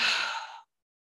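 A full, deep exhale during a yoga nidra practice sounds as a soft, airy sigh that tapers off after about half a second, followed by silence.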